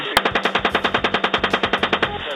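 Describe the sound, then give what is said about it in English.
Sustained automatic gunfire from U.S. forces firing on Iraqi civilians in army video: a rapid, evenly spaced string of many loud rounds at a steady rhythm, with no pauses and no voices. “The U.S. military has confirmed the authenticity of their own video showing U.S. forces indiscriminately firing on Iraqi civilians.”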